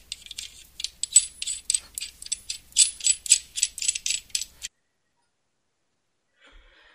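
Rapid, fast-paced ratcheting clicks sound as a microphone is tightened and packed into its box. The crisp, high clicks run steadily for several seconds, then stop, leaving near silence and one faint knock.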